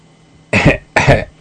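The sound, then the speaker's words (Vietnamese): A man gives two short, dry, feigned coughs, an old man's deliberate throat noise. The two throaty bursts are loud and evenly spaced, with no talk around them. “Lão Đổng làm bộ ho khan 2 tiếng, cắt đứt luồng suy nghĩ của hai người.”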